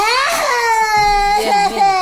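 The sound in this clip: A child's loud, distressed crying: one long wail slides downward in pitch, then breaks into shorter sobbing pulses near the end.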